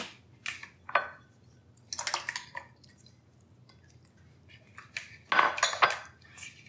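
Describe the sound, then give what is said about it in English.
A whisk works milk into lumpy batter in a bowl, making a few short bursts of metal clinking against the bowl mixed with wet squishing. Quiet gaps separate the bursts. “So just try to smush those lumpies, and then we're gonna add the rest of the milk.”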